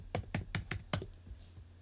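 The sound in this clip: Keys clack on a computer keyboard as someone types in audio editing software: five crisp, evenly spaced keystrokes in quick succession, then a few fainter taps at a low overall level.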